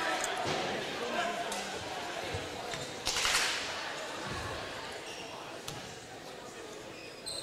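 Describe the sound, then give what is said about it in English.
A free throw at a boys' basketball game between Hastings and Coldwater rattles on the rim and misses, with a few sharp clanks and thuds over steady gym noise. “Second one, rattles, did not go in. First miss from the free throw line tonight.”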